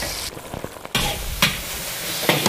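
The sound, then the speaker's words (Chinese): Rice cakes and eel stir-fry in a hot wok over high heat, giving a steady, bright sizzle broken by a few abrupt scraping stirs and clacks of the spatula, with no talk. “印子粑一下锅就裹上了一层酱色的外衣，高温炒制下，淡淡的米香也飘散出来。”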